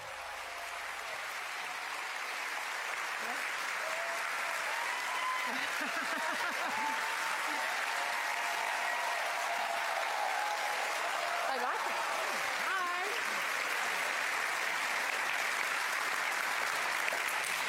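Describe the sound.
Sustained audience applause fills a live event at the Sydney Opera House for All About Women 2022, a dense, even wash of clapping that holds steady throughout with no talk.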